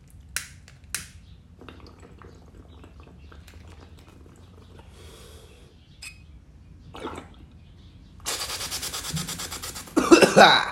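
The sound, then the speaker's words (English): A person drawing on a bong, with quiet gurgling from the water pipe, then a loud burst of harsh coughing near the end. “Excuse me one sec. I'm gonna hit this little bong.”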